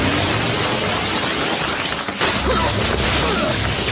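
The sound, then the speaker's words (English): An energy field switching on: loud, dense static-like hiss that dips briefly midway, then breaks into a sharp burst and continues as a sustained, crackling roar. “Stop! Get back! They've activated an energy field.”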